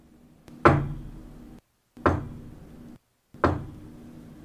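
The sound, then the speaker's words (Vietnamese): An elderly man's walking cane taps three times at the doorway of a martial arts hall, each a sharp, evenly spaced knock with a brief ringing decay, with no voices. “chợt nghe tiếng trống gậy vọng tới từ cửa võ đường.”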